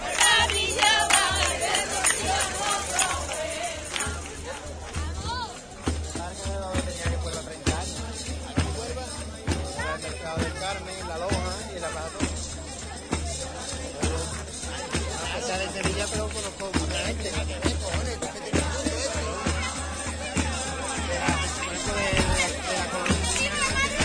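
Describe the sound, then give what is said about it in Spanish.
Pilgrims cheer at El Rocío during the Huelva brotherhood's 2015 entry. A continuous roar of crowd voices runs for the whole stretch beneath a man talking. “Los mismos peregrinos que están aquí en este momento ayudan con esos vítores y esas palmas.”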